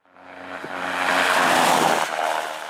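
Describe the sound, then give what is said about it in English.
Car tires run over a traditional asphalt rumble strip as a car drifts out of its highway lane, making a loud, rough droning roar with a low buzzing hum beneath. The roar swells, holds, then eases slightly. “That's the sound of a traditional rumble strip, or the rigid strip of asphalt tires hit when a car drifts out of its lane.”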